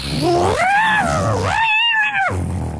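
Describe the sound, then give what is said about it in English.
A human voice imitates a cat caught in a vacuum cleaner with two loud, drawn-out yowls that rise and fall in pitch. “Now give us your cat in the vacuum cleaner. That's your favourite sound effect.”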